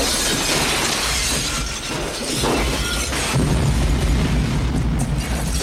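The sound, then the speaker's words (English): Grenade explosions in a video game: booming blasts with shattering, glassy debris over a continuous loud roar that swells further toward the end, with no voices. “Grenades are out now.”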